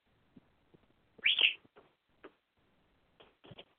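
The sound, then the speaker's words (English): Pet birds at bedtime give a few soft chirps, with one brighter, clearer chirp standing out early and a couple of faint short calls later, separated by quiet gaps and small ticking sounds. “It's actually bedtime. Yep. Time for birds to go to bed.”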